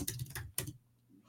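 Typing a chat message on a computer keyboard: a quick flurry of soft, clicking keystrokes, then a pause into near silence, quiet and without talk.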